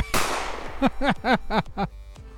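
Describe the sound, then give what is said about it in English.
A gunshot sound effect for a tabletop role-playing game: a sharp, noisy blast followed by a rapid run of five warbling, chirping tones. “Although, I am going to try taking a shot at Royce. Not with magic, with a gun.”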